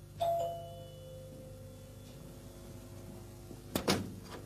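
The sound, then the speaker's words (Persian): A doorbell rings at the front door with a single clear chime that holds and slowly fades. Near the end comes a brief, sharp clatter. “الان اومد پشت در اینجا. بله حالا زنگ میزند.”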